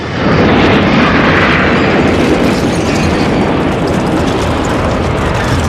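An explosion bursts from a giant plant engulfed in crackling electricity: a loud, dense roar that hits at once and holds steady for several seconds with no talk.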